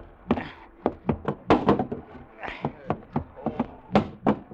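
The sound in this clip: A cabin hatch on a boat is opened amid many irregular wooden thumps and knocks. Dull, fairly loud impacts come in uneven bursts throughout.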